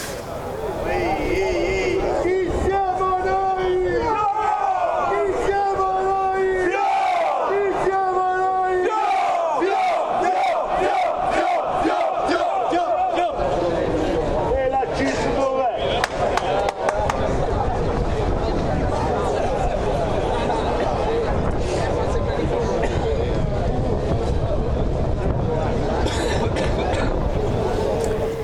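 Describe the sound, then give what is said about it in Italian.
Acciaierie d'Italia steelworkers chant and sing in front of the Genoa prefecture while awaiting the interior minister: a loud, sustained crowd with sung and shouted chants rising over a steady roar of voices. “Sentite canti e cori, allora vado da Aurora Bottino, che nel frattempo è arrivata davanti alla prefettura.”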